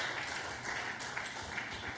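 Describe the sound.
A church audience applauds, giving the Lord an offering of clapping: steady, faint, dense clapping that carries on evenly throughout without a clear break.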